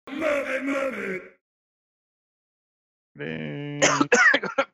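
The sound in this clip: Coughing after inhaling strong peppermint from a diffuser: a strained, groaning vocal sound, a long silence, then a raspy throat sound that breaks into a cluster of several sharp, harsh coughs.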